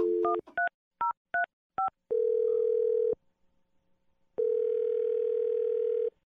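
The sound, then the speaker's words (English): Telephone keypad tones as a number is dialed: several short, evenly spaced beeps, then two long, steady ringing tones separated by a quiet gap, with no talking. “Okay, let's dial the number.”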